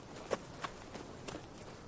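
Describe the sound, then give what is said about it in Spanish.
Footsteps of a child walking away across a frozen lake: a few soft, faint steps on the ice, spaced at an unhurried walking pace and heard alone. “La cría se aleja caminando por el hielo del lago.”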